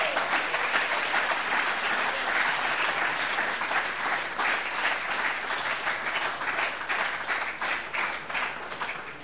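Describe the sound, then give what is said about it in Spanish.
A church audience applauds during a worship service, a dense, steady clapping that stays loud throughout and eases slightly toward the end. “Denle un aplauso al Señor.”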